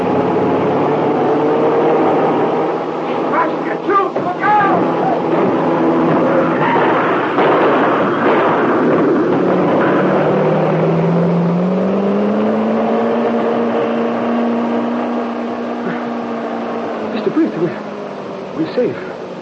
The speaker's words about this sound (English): Crash right through barricade. We're safe. Just a dented fender.